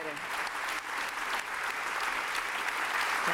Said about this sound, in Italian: Appena aperto bocca, l'applauso.